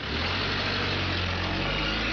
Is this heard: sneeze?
no